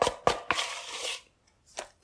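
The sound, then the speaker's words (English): Cake batter is scooped with a utensil and plopped into a pan, giving faint soft taps and a brief scraping smear, followed by a pause and one more quiet plop. “rotate, scoop, plop, rotate, and we're going to repeat. Scooping and plopping. That doesn't sound good, does it?”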